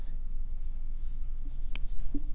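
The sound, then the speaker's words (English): Handwriting on paper: a faint, continuous scratchy rustle of a pen moving in short strokes, with a couple of light taps near the end. “And that is, let's write it down here. Let me get righteousness.”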